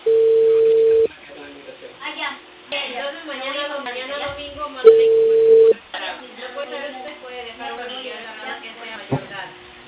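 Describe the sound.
A telephone ringback tone sounds while a call is being placed. Two steady, low, even tones each last about a second over a narrow phone line, and voices talk in the gap between them and afterward.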